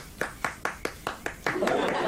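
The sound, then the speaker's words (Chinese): One person clapping hands: seven crisp, evenly spaced claps in a steady rhythm, then a voice takes over. “西伯太太，我到这儿来是为你鼓掌的。”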